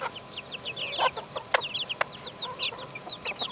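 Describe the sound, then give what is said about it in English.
Chickens clucking in a run of many short, bright clucks at an irregular pace, some overlapping, with no voices. “So that's the chickens.”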